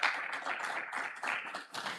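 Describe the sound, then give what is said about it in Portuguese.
Crowd applause at a Brazilian civic ceremony welcoming the young shooters of a Tiro de Guerra military training unit, a dense, steady patter of many hands that dips briefly before swelling again. “Uma salva de palmas para os nossos meninos.”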